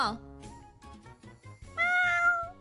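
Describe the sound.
A cat meows in a shop where it is kept as a pet, one drawn-out, tonal meow rising out of the mix near the end after a stretch of people talking.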